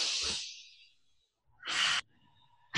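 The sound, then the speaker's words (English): Deep breathing during a pause in a conversation: a long airy breath that fades out, then after a moment of quiet a short, sharper burst of breath, both breathy and fairly soft, with no talking. “We'll take a pause. Let's take a deep breath.”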